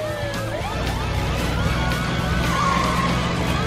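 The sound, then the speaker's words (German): A quad bike driving off: a steady low engine drone runs throughout, with whining, wavering tones sweeping above it. “saß auch schon auf seinem roten Quad. Dann setzte er sich an die Spitze und los ging die Fahrt quer durch die Abenteuerbucht.”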